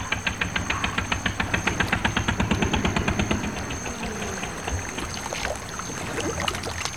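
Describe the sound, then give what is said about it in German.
A motorboat arriving and maneuvering toward a shore, its exhaust bubbling in quick rhythmic pulses for about half the time, then easing into a quieter, steady engine and water wash. “Ein Motorboot tauchte auf, der Auspuff blubberte und der Mann am Steuer versuchte, es ans Ufer zu manövrieren.”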